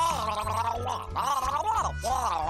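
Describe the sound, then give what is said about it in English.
A person gargles, making a wavering, bubbling voiced tone in three bursts separated by brief pauses. The sound is fairly loud. “I don't speak gargle. What is going on? Gargling.”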